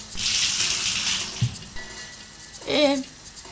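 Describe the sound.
Water pours out of an upturned drinking glass in a short splashing gush of about a second, then fades into quieter noise.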